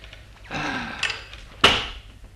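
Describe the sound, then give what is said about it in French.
A door is forced open as a staged sound effect: a rough, strained scrape builds, then a single sharp, loud crack breaks through before the sound dies away. “Oui, la porte va sauter, ça. Je lui ai promis à la petite qu'elle épouserait son Edgar. Ça y est, la porte saute. Ça y est, c'est fait.”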